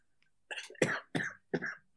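A person breaks into a coughing fit: several harsh, loud coughs in quick succession, each a short burst separated by brief pauses.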